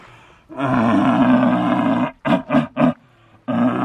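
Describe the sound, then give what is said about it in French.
A human voice imitates a red deer stag's rutting bellow: one long, loud, low roar, then three short grunting bursts, and a fresh roar starting at the end. “T'as le cerf qui brame. Oui. Le cerf qui brame classique.”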